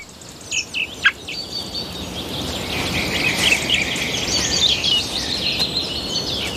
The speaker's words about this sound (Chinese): 最年长的那只雏鸟已经羽翼渐丰，准备迎接巢穴外的生活，俯瞰这片神奇的土地。